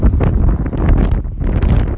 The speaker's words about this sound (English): Oh dear, I'm sorry, I'm going to have to stop now. The wind is building up again.